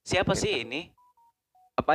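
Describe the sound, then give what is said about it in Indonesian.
A WhatsApp incoming-message notification tone: three short, faint, clean beeps at an even pitch, falling in a pause between bursts of people talking. “Ini suara apa? Ini WA masuk.”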